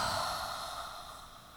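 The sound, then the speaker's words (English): Slow breathing during a yoga session, with a breath drawn in through the nose and let out through the mouth, heard as a soft, steady, airy rush that fades slightly over a second and a half, alone without talk. “have a breath in through your nose, breath out through your mouth”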